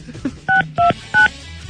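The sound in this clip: Telephone keypad tones as a number is dialed: three short, clear dual-pitched beeps spaced evenly, each about a tenth of a second long, over faint background noise.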